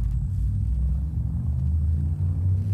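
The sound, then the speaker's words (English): A spaceship's frameshift drive charges in a video game, a steady, deep rumble with a faint thin high whine held above it throughout. “Frameshift drive charging.”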